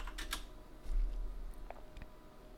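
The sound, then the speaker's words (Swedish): Faint typing on a computer keyboard: irregular light key clicks scattered in short bursts. “Jag ska se om jag kan skriva det här.”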